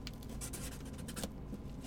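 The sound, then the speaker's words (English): A permanent marker writes in soft, scratchy strokes, a faint run of quick squeaks and scrapes repeating without a break, alone and with no talk. “What are you writing?”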